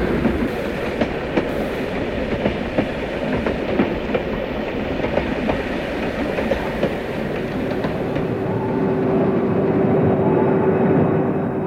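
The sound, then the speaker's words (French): A train travels on rails toward Lyon with a loud, steady rumble and a continuous run of rhythmic clacks, the roar swelling slightly toward the end. “Après avoir dit au revoir à sa famille, elle a pris le train qui l'a menée à Lyon, 25 km plus loin.”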